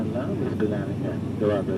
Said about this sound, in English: We are bouncing along in a propeller plane. 19,000 feet below us, in a steamy blue haze, lies the Arabian Sea.